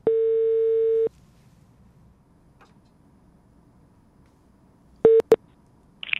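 Telephone ringback tone while calling someone in Zürich: a steady, mid-pitched electronic tone sounds for about a second, then a long silence, then a second, much shorter burst that is cut off.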